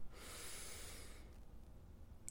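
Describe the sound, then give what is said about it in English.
A single deep breath drawn in through the nose: a soft, airy inhale lasting about a second, then near silence. “taking a deep breath in through the nose”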